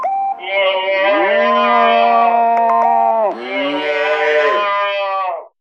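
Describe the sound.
A calf bawls and moos loudly in a dairy cowshed after being separated from its mother at one day old: long, drawn-out, harmonic calls that run almost without pause, with one brief break partway through and no talk.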